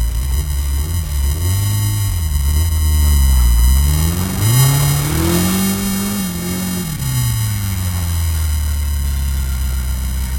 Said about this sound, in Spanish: dejaros el sonido de cómo sonaba este vehículo